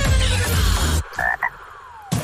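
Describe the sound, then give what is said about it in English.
Frog croaking: a couple of short, bright croaks sound right after a loud burst of music cuts off. “Hey, what does a frog know about money? Not much. But they do know about taking the leap.”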